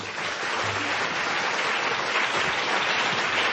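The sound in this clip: An audience applauds to welcome an author at a Philadelphia book event. Many hands clap in a steady, even wash, moderately loud, with no pause over a few seconds.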